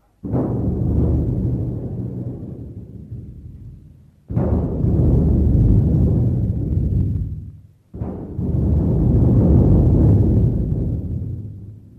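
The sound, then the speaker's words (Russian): Three booming cannon shots fired as a salute in honour of Russian sailors, discoverers of Antarctica. Each blast hits sharply and rolls into a long, deep rumble that fades before the next. “Отдать салют в честь русских моряков, первооткрывателей Антарктиды.”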